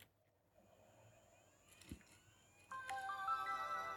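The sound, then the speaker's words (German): A PlayStation Portable starting up: very faint soft whirring and light clicks, then a clear bright electronic chime with sustained tones that holds to the end. “Charismatischer Sound, den man sofort wiedererkennt, inklusive des Surrens des UMD-Laufwerks, das man wahrscheinlich über dieses Mikrofon nicht mehr hört. Wir sprechen heute über die PlayStation Portable.”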